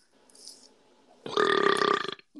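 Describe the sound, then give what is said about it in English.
A loud, harsh human burp: a single buzzing belch lasting under a second, with fainter sounds before it. “to me burping at you. Sounds horrible, man.”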